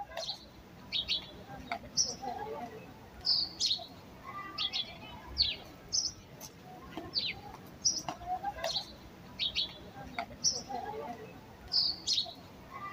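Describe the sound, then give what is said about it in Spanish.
Birds sing in garden trees, many short, high chirps and whistled phrases repeating in quick bursts over a soft, steady background hiss. “Este es el sonido de nuestro de los pájaros en nuestros árboles, en nuestro jardín.”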